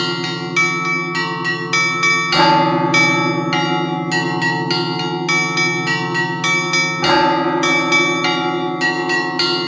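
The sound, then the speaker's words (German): Church bells in a Finnish bell tower, rung by a monk working the mechanism with hands and feet: many quick, rhythmic strikes of several bells over a sustained low ringing hum, loud throughout with no voices. “Ich sage vielleicht dazu, was man hört, ein Mönch ist da im Glockenturm und der spannt sich irgendwie in so ein Gestell ein und zieht mit Händen und Füßen da diese Mechanismen, um die Glocken in Bewegung zu setzen.”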